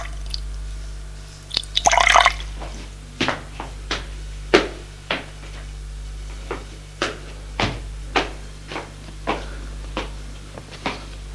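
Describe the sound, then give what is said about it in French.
Drops are added one at a time to a glass of water, making a steady series of small, soft plinks and drips at fairly even intervals after a brief burst of splashing early on. “un verre d'eau et y mettre quelques gouttes.”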